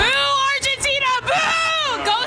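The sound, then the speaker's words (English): Voices of a pro-England crowd in a sports bar: loud raised voices and shouting over a background of chatter and babble, rising and falling in short bursts. “So indoors at the sports bars, including this gloomy pro-England crowd.”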